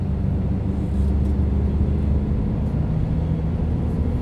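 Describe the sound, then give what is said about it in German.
Steady low engine and road rumble from a taxi driving from a bus station toward a shooting club out in hilly countryside, loud, continuous and dominated by deep tones, with no voices. “Vom Busbahnhof aus fahre ich mit einem Taxi zum Schießclub.”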